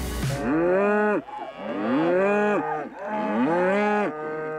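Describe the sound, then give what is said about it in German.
Cattle moo on a pasture around a farm in the Sauerland, where the herd lives outdoors all year. Three long, loud, deep moos, each bending down in pitch at the end, with short pauses between them. “Die Rinder leben das ganze Jahr über draußen auf Weiden rund um den Hof.”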